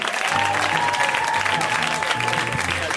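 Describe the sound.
Audience applause welcomes guests onto the show, a dense, steady wash of clapping that holds at an even, loud level throughout.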